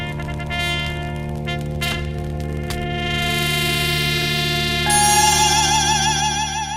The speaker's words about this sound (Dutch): Wat je hoort is een fragment uit die compositie Sirius.